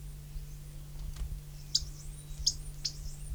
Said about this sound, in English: Alarm notes, apparently. Two birds present.